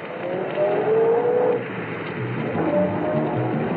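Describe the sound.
A police car pulling away and driving off, its engine a steady drone that swells slightly early on and then settles, heard alone without voices.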